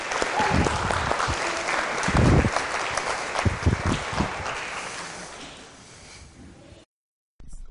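Audience applause welcoming two guests to a gathering in a large building: a dense, steady wash of clapping that gradually thins and fades before cutting off.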